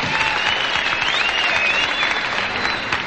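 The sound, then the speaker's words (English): The Grand Ole Opry audience applauds a guest star singer with dense, steady clapping that fills the whole stretch, while a faint thin whistle drifts above it. “Let's have a swell Grand Ole Opry welcome for our guest star, Miss Patsy Cline, ladies and gentlemen.”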